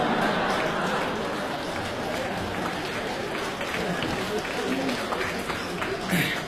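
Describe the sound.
Audience applause fills a Beijing comedy crosstalk performance, a dense, steady patter of clapping that runs unbroken from start to end, with some speech at times.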